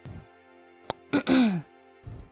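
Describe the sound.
Throat clearing from a speaker with a sore throat: a brief sharp catch, then a rough two-part clearing ending in a falling voiced tone, with faint murmuring before and after.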